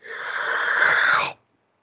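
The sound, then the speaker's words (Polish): A single sharp intake of breath, drawn in as a loud, airy hiss. It lasts a little over a second, then cuts off abruptly into silence, with no other sound around it. “ja przepraszam bardzo, ja muszę wziąć wdech.”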